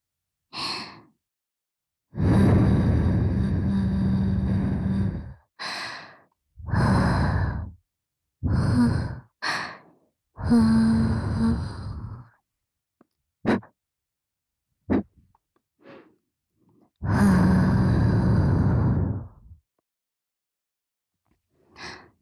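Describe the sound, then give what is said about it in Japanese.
Soft breathy puffs of air blown gently into the other ear during an ear-cleaning session, matching what was done to the right ear. Many separate breaths, some long and drawn out, others short, with quiet gaps between them and no talk. “それではこちらも右耳の時と同じようにお耳ふうふうからしていきますね。”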